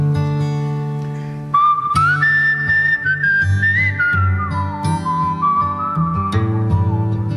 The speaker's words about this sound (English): I've devised a little whistling introduction for it.